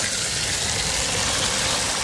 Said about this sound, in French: Cindy qui descend de son véhicule pour prendre de l'eau à une fontaine. Attention, ça coule fort.